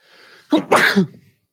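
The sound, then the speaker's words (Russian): A single loud, sharp sneeze with a faint breathy lead-in, bursting out in two quick pushes and then trailing off into silence. “Будь здоров. Спасибо. Я чихаю, что-то, ну, першило.”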